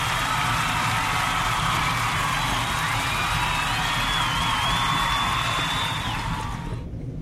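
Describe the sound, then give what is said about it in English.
Dense applause and cheering from a crowd, with whoops and a high whistle on top. The sound runs steady and loud for about seven seconds, then cuts off. “That applause is for my downloaders and my listeners that's been listening to”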